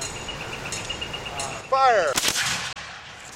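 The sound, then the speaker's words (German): A musket goes off in a single loud, sharp blast during weapons training in muzzle-loading firearms, with a short rough tail that cuts off abruptly. Fainter rushing noise surrounds it. “Waffenkunde steht auf dem Programm. Wir schießen mit Musketen.”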